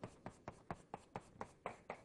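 Drawing on a board during a physics lecture: a faint, steady run of about nine evenly spaced scraping strokes, each a short rasp repeating at a quick, regular rhythm.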